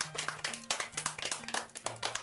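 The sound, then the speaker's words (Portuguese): A short round of clapping from a group at a children's singing event, a brisk, dense patter of hand claps that keeps up steadily for a couple of seconds with no talk over it, moderately loud. “Uma salva de palmas para o nosso amiguinho.”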